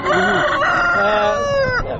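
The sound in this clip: A rooster crows loudly at a chicken market in one long, strained call. The call is rich in harmonics and dips in pitch near its end, with no talk over it.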